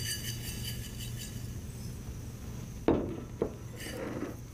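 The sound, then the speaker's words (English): Food is set down on a dish during patty-making, giving a couple of brief, soft clatters against a steady low background hum. “Now, I'm going to put this on my dish.”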